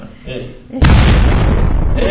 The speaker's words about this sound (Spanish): Bomba.